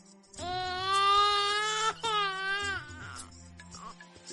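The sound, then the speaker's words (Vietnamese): A small child crying loudly: two long, strained wails, the second breaking off with a falling pitch, followed by fainter sobbing sounds. “Bao nhiêu người nghe thấy tiếng khóc, liền có bấy nhiêu người phải bịt lỗ tai.”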